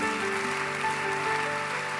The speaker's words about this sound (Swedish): Låt oss ge en härlig applåd för dem när de går ner.